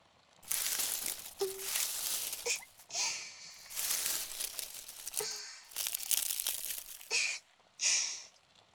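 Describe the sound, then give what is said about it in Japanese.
Aluminium foil crinkles and crumples in several long stretches of dry, papery rustling, separated by brief pauses. No one speaks. “このアルミホイルというのは便利ですね。ただの銀紙かと思ったら火の中でも燃えないだなんて。”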